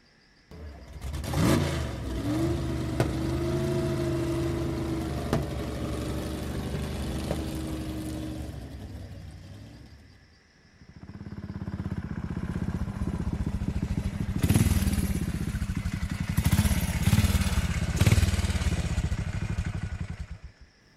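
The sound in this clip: A motorcycle starts and rides off carrying a passenger home. A steady engine rumble runs, dips briefly midway, then returns with louder revving surges as the bike pulls away.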